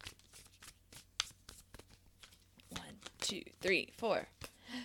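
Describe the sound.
Tarot cards are shuffled by hand in a quick flurry of soft papery riffles and light card slaps; toward the end a person speaks quietly over the card sounds.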